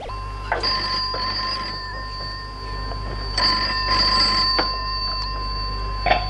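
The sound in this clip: A telephone rings with two bursts of a bright, steady electronic bell tone separated by a quieter pause, plus a few small clicks. No one speaks.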